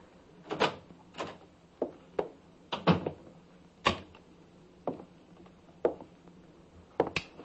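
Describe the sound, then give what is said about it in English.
A key scraping and turning in a door lock: a series of sharp metallic clicks and rattles at uneven intervals, fairly quiet, with no voices. “And then I heard the key in the lock.”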